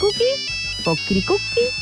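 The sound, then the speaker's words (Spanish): Telephone ringing on an outgoing call, a few short tonal ring bursts in a melodic pattern with gaps between them. “Ya, vamos a llamar.”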